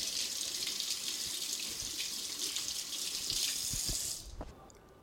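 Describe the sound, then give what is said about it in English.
Running tap water while fingers sticky with chocolate-chip cookie dough are rinsed during baking: a steady, bright splashing hiss for about four seconds that then stops, leaving a few faint drips and clicks. “Rinse off my fingers so I can take another picture.”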